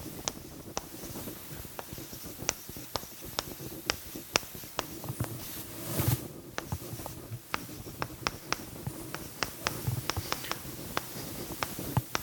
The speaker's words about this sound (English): So let's draw a little chart here.